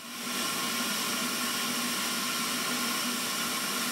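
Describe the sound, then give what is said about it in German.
Steady, loud hiss of compressed-air suction pulling molten metal at about 950 degrees from a furnace, through a long snout and into a crucible under a suction lid. It swells in quickly, then holds unbroken to the end. “Dafür ist ein Schlauch verlegt von einem Druckluftanschluss an der Wand zum Saugdeckel. Dadurch entsteht ein Unterdruck in den Tiegel. Und durch diesen Unterdruck wird das Metall durch den langen Rüssel aus dem Ofen in den Tiegel gesaugt.”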